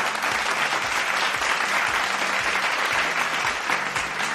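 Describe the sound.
Audience clapping at a live quiz event where a correct answer is being cheered. Dense, steady applause from many hands holds at an even level from start to finish.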